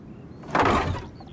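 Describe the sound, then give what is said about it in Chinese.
A wooden courtyard gate is pulled open in one short, scraping sweep that swells and fades over about half a second, against quiet surroundings. “这一日，家仆三宝打开院门”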